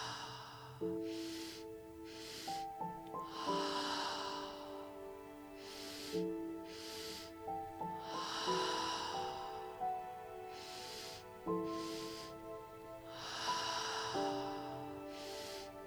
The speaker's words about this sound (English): And breathing in for a few more rounds here. So giving it your all, letting your breath be big and bold.